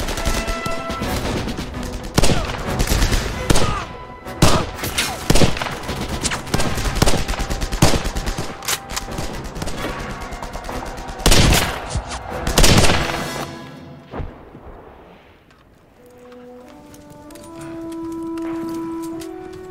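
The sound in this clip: Gunfire from a man shooting: many loud, sharp shots in rapid bursts and volleys, which then give way to quieter rumbling and faint tonal sounds.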